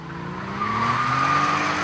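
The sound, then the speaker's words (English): A Porsche engine roars and its tires squeal as the car is driven hard around a small race track in Kuwait. The engine note is loud and continuous and climbs slightly in pitch. “That's the sound of a Porsche being put through its paces.”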